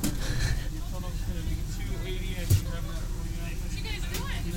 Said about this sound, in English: Well, just while we're driving in general. We have a long drive.